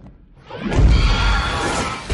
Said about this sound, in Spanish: La reina y los protectores estallan.